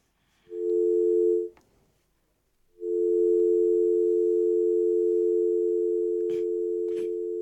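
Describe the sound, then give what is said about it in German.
A steady, low electronic telephone tone for an incoming call sounds for about a second, stops, then resumes and holds unbroken to the end, with a couple of brief clicks late on. “Oh, ich sehe gerade, wir bekommen einen Anruf. Schauen wir mal.”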